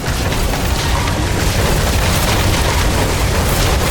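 Automatic weapons fire and explosions roar together as one dense, continuous wall of loud noise, heavy and unbroken from start to end, with no separate shots standing out.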